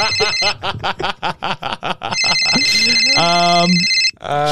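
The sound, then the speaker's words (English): A telephone rings with an incoming call: steady, bright electronic ringing tones hold for a couple of seconds, following a burst of talk. “Okay, that sounds like an inbound call, funnily enough.”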